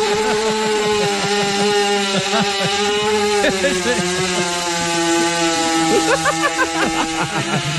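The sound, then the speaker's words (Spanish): A chainsaw engine runs with a steady, buzzing drone of layered tones. It turns rougher and more uneven near the end, as if the throttle were being worked. “es una motosierra”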